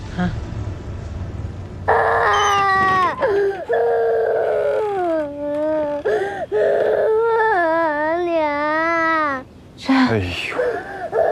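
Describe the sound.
A child cries and wails in loud, high, wavering sobs whose pitch slides up and down, sustained with only brief breaks between drawn-out cries.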